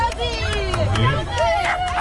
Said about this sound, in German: So, meine Damen und Herren, klingt's beim Dackelrennen, wenn Dackel rennen.